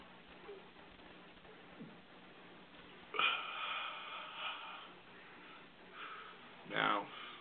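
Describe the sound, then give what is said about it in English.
Marijuana vapor is slowly inhaled from a heated vaporizer in two long, breathy draws, one longer and one shorter, between quiet stretches and speech. “And now the vapor is being heated. They're not even slowly. Start to inhale the marijuana vapor at this time. Slowly.”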